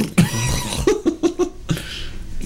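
Someone clears their throat in a string of short, rough, voiced bursts, several quick catches close together, over a low background murmur.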